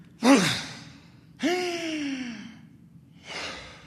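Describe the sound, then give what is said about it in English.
Deep breaths are taken on request during a doctor's stethoscope examination: a sharp intake, then a long, voiced, sigh-like exhale that drops in pitch, then another softer breath. The breaths are quiet and heard alone, without talk. “Take a deep breath for me.”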